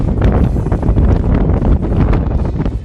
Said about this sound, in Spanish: Después de la nieve y la lluvia, llega el viento. El viento que está siendo el gran protagonista de este viernes en Madrid y que suena así.